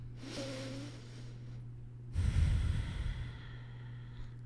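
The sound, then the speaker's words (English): A deep breath, heard as a long, breathy rush of air that swells loudest in the middle and then fades, alone without talk. “So we invite you to take in a deep breath.”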